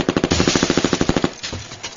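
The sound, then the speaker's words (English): A mini-Uzi submachine gun set to short bursts fires a fast, chattering string of loud, sharp shots in an even rhythm, followed by a few scattered cracks. “hit the lamps with chattering SMG fire that shattered them”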